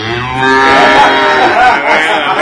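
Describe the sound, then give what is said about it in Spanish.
A cow moos in one long, loud, low bellow that fills the whole clip, rough and steady in pitch, with no voices heard. “Pero te voy a poner una vaca, mira.”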